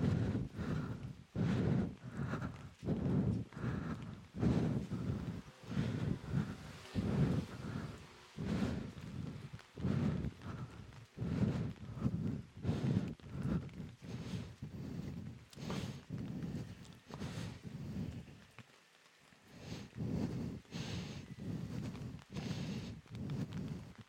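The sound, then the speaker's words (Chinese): Rain patters on an umbrella during a walk, a constant wash of drops over steady, rhythmic footsteps. “好久没有这么惬意的听着雨伞，听着雨落在雨伞上的声音，在雨中走路了。”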